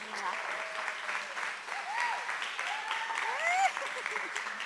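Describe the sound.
An audience applauds to welcome the speaker's wife on stage at a Mother's Day service, with steady clapping and voices whooping and calling out over it.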